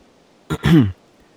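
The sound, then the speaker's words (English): A person clears their throat once, a brief rasping catch followed by a longer, lower voiced grunt, heard alone against near silence. “I cleared my throat.”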